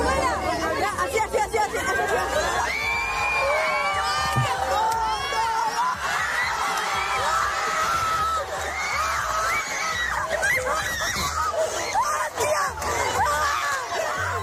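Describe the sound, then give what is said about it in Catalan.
A crowd cheers, shouts and chatters loudly and without a break as an audience reacts to an older woman doing six push-ups, with shrill screams and whoops rising above the steady hubbub. “Atenció, perquè aquesta que escoltareu és la reacció del públic.”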